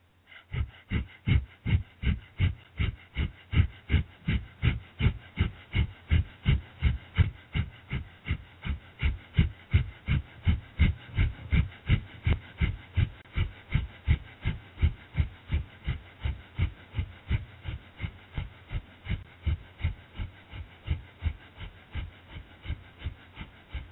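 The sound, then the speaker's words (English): Breath of fire yoga breathing, done as a seated stretch: many rapid, forceful exhalations at a steady pace of about two per second. The rhythm stays even and unbroken with no talking. “The breath to be using is breath of fire, and we're going to do this for 2 minutes.”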